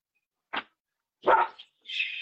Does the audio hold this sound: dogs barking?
yes

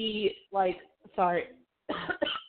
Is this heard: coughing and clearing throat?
yes

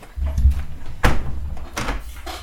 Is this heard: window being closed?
yes

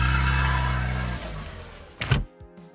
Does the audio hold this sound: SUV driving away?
yes

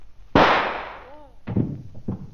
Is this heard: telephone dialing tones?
no

